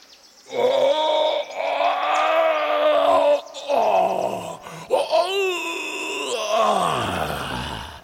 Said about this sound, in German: In diesem Moment dringt ein fürchterlicher Schrei aus der Höhle.